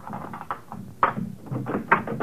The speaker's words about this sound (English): Yes, I know, but please open the door.